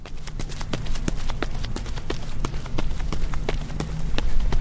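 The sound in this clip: Running footsteps on a lightly trafficked paved road in Emmaus, Pennsylvania, in an innovative new running shoe. Many sharp, quick slaps fall in a steady rhythm over a constant low background rumble.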